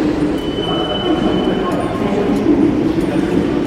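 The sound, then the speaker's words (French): Commuter train noise in the underground RER line B station at Les Halles in Paris, a steady, dense rumbling roar with a faint thin high tone, and voices mixed in. “Nous débutons notre exploration au cœur de la capitale, dans les couloirs de la station Les Halles, sur la ligne B du RER.”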